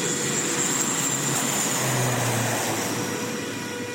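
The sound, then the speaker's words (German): Steady droning roar of a small propeller plane that flies between Funafuti atoll in Tuvalu and Fiji. The broad, even noise holds at a constant level throughout, with no voices. “Eine kleine Propellermaschine fliegt 3 bis 4 Mal pro Woche vom Hauptatoll Funafuti nach Fidschi und zurück.”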